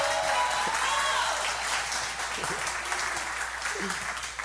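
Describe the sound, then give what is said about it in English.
A church audience applauds to welcome a guest speaker to the pulpit, the clapping sustained and dense throughout and easing slightly toward the end. “Would you please give a warm welcome today to the Dr. Terrence Green, everybody. Give him a hand.”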